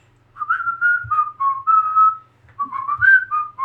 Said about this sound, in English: Also, it's that song I didn't even realize I liked, but like I'd be like whistling some tune